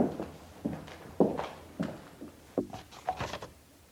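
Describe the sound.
Footsteps of a man walking: several soft, evenly spaced steps thud faintly, one after another, with no speech over them.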